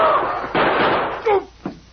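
A few sharp, loud bangs, gunshot sound effects in a radio crime drama, each a short burst that quickly dies away.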